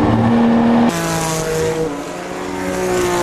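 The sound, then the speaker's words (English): A race car engine roars loudly as the driver keeps the throttle down while the rear end starts sliding around. The sustained, buzzing engine note steps down in pitch about a second in, then holds a steady, slowly rising drone. “We can listen to it too. You can hear that I don't really get off the throttle when the rear end starts going around.”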